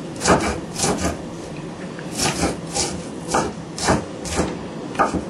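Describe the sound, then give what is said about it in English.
Food is chopped finely with a knife during cooking prep, giving a steady series of rasping, woody strikes. The blows come in irregular clusters over about five seconds, with no talking. “We chop it fine, yeah?”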